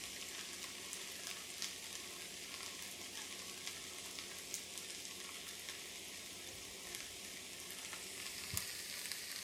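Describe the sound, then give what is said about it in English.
Food frying in a pan as it is stirred, seasoned with black pepper: a faint, steady sizzle with scattered small crackles and pops throughout. “The sesame oil, the toasted sesame oil, I'm going to use that as sort of a finishing oil after I take all of this off the heat. Go ahead and give this another stir.”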